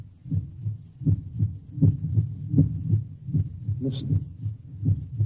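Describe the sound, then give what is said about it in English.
Pulsating human heartbeat: a steady, low thudding lub-dub rhythm repeats throughout at a constant pace, and a voice briefly speaks a single word partway through. “That sound is the first and last sound in your memory. Pulsating of a human heart.”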